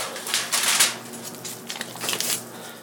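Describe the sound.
Tin foil crinkles as it is rolled around a potato seasoned with black pepper, garlic powder and butter, in bursts of crisp, papery rustling with no talk.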